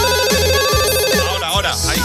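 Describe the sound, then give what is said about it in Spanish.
A telephone ringing with a loud electronic ringtone, a bright melodic pattern that repeats in quick regular cycles and fills the whole clip. “Veo, amigos que también están llamando por teléfono. Espérate que lo cojo, a ver, un segundo.”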